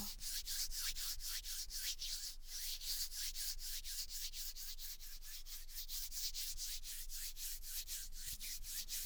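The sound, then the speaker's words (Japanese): Two hands rub together close to the ear, making soft, dry swishing strokes in a steady, fast rhythm. Many even strokes repeat without pause, quiet and breathy, with no voices. “耳元で両手をこすり合わせる音。”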